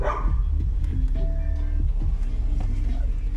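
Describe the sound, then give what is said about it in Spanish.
Steady low engine and road rumble from a car being driven, loud and constant throughout, with a dog's thin whines and yips rising above it at intervals. “Perdón, es que venimos manejando.”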